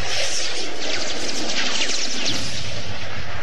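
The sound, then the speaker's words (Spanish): A dense, loud roaring hiss with crackling texture from a sci-fi audio drama scene of airplanes struck one by one by a deadly ray, continuous and unbroken throughout. “Uno a uno, 3 aviones son alcanzados por el rayo mortal.”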